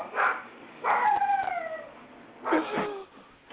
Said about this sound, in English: Go to the fucking room and stop fucking barking like that